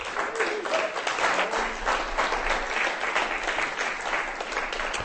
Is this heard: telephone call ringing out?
no